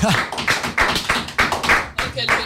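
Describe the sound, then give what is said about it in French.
Clapping from the small group of people in a studio, sharp, separate claps coming loosely and unevenly rather than as a full wash of applause. “Le studio qui a applaudi.”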